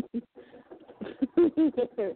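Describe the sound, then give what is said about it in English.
A pet bird out of its cage coos in a run of short, throaty, pulsing notes, mid-pitched and fairly loud, growing stronger toward the end with no talk over it. “Don't want to be distracted by a roaming bird.”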